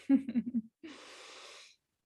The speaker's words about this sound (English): So let's all take a big breath and just notice our bodies.